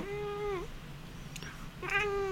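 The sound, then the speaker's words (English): A cat meows twice: a drawn-out, clear harmonic cry that dips at its end, a pause, then a second meow rising near the close, over a faint low background hum. “That's your cat?”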